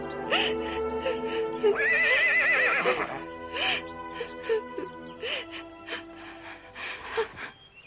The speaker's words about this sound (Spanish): El relincho llama la atención de los jóvenes que caminan con sigilo por el bosque buscando su procedencia.